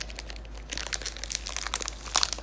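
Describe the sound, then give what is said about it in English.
Crinkling plastic as a melon popsicle wrapper is unwrapped at a dining table: continuous crackling and crumpling with sharp bright snaps, over a steady low hum. “I got a popsicle. I'm just gonna unwrap it.”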